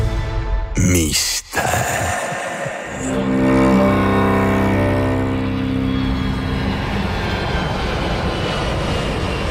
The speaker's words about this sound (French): Ici votre pilote qui vous parle, le décollage est imminent. Attachez vos ceintures